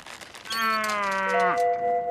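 A cow lets out one long, loud, sustained moo, steady in tone for most of its length before the pitch drops and breaks near the end, heard alone with no talk.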